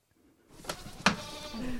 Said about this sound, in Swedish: Ska vi heja på getterna och säga god morgon?